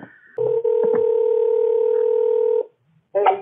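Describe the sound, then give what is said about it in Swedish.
A telephone tone sounds just after a call is cut off: one loud, steady electronic tone holds for about two seconds. A few soft clicks overlap it, and a short burst of other sound follows after a pause. “vi lyssnar på hur det låter precis efter att det här samtalet har brutit”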